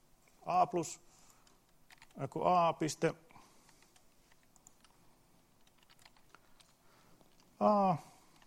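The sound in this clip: Quick, faint computer keyboard typing of a math formula during a lesson, the light clicks running between short bursts of speech.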